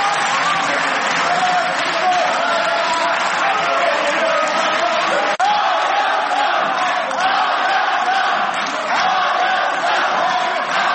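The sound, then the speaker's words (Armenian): Standing applause in a parliamentary hall as opposition members walk out, a dense, continuous roar of clapping mixed with crowd noise and chanting voices, loud and unbroken throughout. “Առանց Նիկոլ Հայաստան վանկարկումներով դահլիճը լքող ընդդիմադիրներին իշխանականները ճանապարհեցին հոտնկայս եւ ծափահարություններով։”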